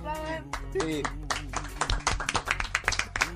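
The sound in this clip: Audience applause as guests are acknowledged at an event: scattered hand claps that grow denser and more rhythmic, over a steady low hum with some voice near the start.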